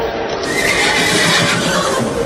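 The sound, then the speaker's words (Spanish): A horse gives a loud, continuous whinny at a San Antonio festival, heard over dense, noisy background sound. “¿Y este poco de caballo que traen aquí?”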